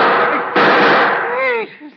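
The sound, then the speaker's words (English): A gunshot rings out at a man outside a small house with a sun porch: one sudden, loud burst that lingers as a rough roar, followed by raised voices. “See what I tell you. All the time shooting at Maxie, someone.”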